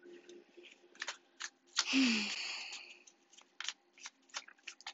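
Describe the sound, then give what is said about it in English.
Tarot cards are shuffled and drawn: a few light snaps and flicks lead into one long papery riffle, followed by scattered soft card clicks and taps. “Next card out, we have the Four of Cups.”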